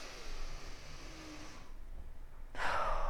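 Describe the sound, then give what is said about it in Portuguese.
A deep breath is drawn in slowly, followed by a brief pause and then a stronger, breathy exhale, with no talking. “É importante, sabe? Colocar para fora, respirar fundo, sabe?”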